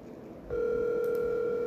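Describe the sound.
Ringback tone of an outgoing phone call: after a moment of low background hiss, a steady, level tone starts and holds unbroken to the end.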